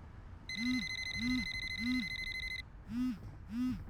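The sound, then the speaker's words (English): A phone rings with an incoming call: five warbling electronic rings in a steady rhythm. A high, bright tone sounds over the first three rings and then drops away. “Aw, nuts. It's Maria again. Don't answer it.”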